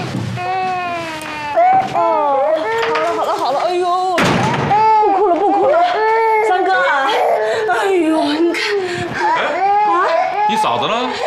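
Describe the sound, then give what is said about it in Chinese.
A baby cries with wavering, high-pitched wails that rise and fall almost continuously, while an adult talks soothingly over the crying. “宝贝儿，不哭了，不哭了”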